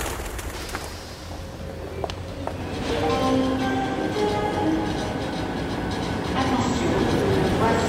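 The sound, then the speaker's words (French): A railway station as a high-speed TGV train arrives: low rumbling that grows louder after about three seconds, joined by several sustained, steady ringing tones that persist to the end. “je me trouve gare de l'Est. Je cherche le TGV en provenance de Reims, Charleville, qui va arriver à 9h”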